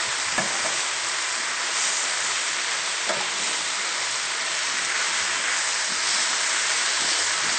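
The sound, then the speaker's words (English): Fresh spinach and softened mushrooms sizzle steadily in a frying pan as they are stirred, a loud constant hiss broken by a couple of faint utensil clicks, with no talking. “Stir the spinach frequently so that it gets wilted on all sides.”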